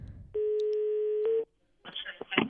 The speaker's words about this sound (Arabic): إذن مازال الهاتف كيرن.